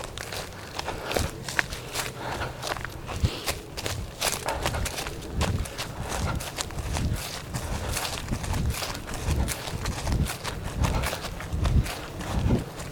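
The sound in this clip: Footsteps of a person out on a morning run thud in a steady, even rhythm, many quick footfalls continuing throughout without a break.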